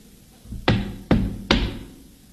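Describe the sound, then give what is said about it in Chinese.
Knocking on a closed front door: three loud, evenly spaced knocks, each sharp and hollow with a short ringing decay, heard alone without voices. “待我上前叩我门”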